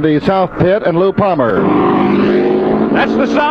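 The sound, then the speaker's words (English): Jimmy Clark's race car roars back onto the speedway track after spinning on an oily turn, a steady buzzing engine drone holding a level pitch that takes over after a man's brief announcing voice. “That's the sound of Jimmy Clark roaring back out on the track.”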